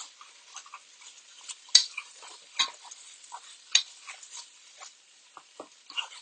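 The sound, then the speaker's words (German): Stirring fried minced meat in a pan: many irregular scraping clicks and knocks over a faint, continuous sizzle, with no talk. “Das Ganze dann einmal umrühren.”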